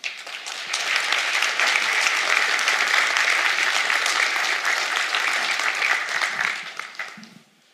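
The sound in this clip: Audience applause welcomes a speaker to the stage at a church service: dense, steady clapping holds for about seven seconds, then thins and fades out at the end.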